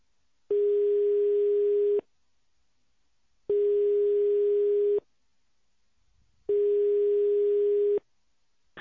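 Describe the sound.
A telephone ringback tone sounds while a call waits to be answered: three long, steady, mid-pitched tones, each about one and a half seconds, separated by equal silences of similar length.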